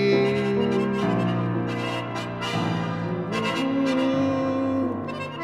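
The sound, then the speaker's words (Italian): Harmonica chords from Stradella, the town where the plain's instruments were born, ring out as loud, sustained reedy tones that change pitch several times, with no voices. “Nel cuor di Stradella, che è quella città dove tutte le armoniche di questa pianura sono nate, qualcuno le suona così.”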